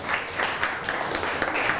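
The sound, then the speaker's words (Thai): Students in a classroom applaud their classmates with continuous, dense clapping that stays moderately soft and even throughout. “ปรบมือให้กับเพื่อนครับ”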